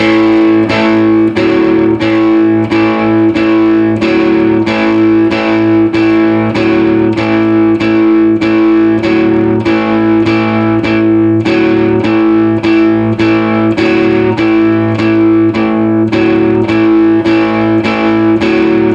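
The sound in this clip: A distorted electric guitar plays four bars of repeated notes in a steady, even rhythm. The notes are loud and evenly spaced, with no voices over them.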